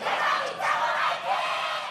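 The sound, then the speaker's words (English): Korean esports fans cheer at a live game competition. The crowd's roar rises and falls in a few surging waves, loud and unbroken, with no single voice standing out. “Announcers call the plays as the crowd watches the action on 7 giant overhead plasma screens. The competition is broadcast on 2 Korean TV networks, and the fans cheer their favorite players like they were football stars.”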